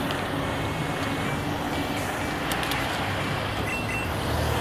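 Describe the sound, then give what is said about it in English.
Lorries in London street traffic, a continuous low rumble and hiss that stays level throughout with no distinct passing events and swells slightly at the end. “Sorry for the noise. It is London, there are no cars, it's just lorries.”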